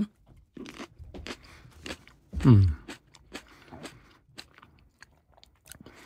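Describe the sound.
Someone bites and chews while tasting a Moroccan variety with a thin skin and a soft bite. One loud crunchy bite stands out, followed by quieter, irregular chewing clicks.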